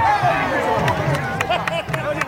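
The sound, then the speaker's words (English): A crowd cheering at a traditional boxing match in northern Nigeria: loud, overlapping shouting voices form a continuous roar, broken by several sharp percussive cracks. “That's the sound of a crowd cheering on their favorite boxer. They're attending a traditional boxing match in northern Nigeria.”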